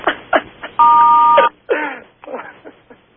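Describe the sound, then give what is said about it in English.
A single electronic beep, a steady mid-pitched tone lasting under a second, rings out amid short bursts of talk. “Sorry about the beeping.”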